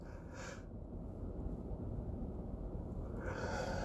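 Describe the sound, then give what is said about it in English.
A yawn carries breathy rushes of air: a short burst near the start and a longer, airy release at the end, over a constant low breathy rustle. “man, this is ridiculous. I'm sick and tired of yawning.”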